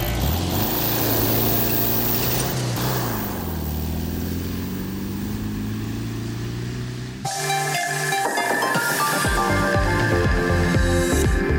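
A car engine revs as the driver steps on the gas: a loud, hissing, droning roar with shifting pitch that runs for about seven seconds before the sound changes abruptly.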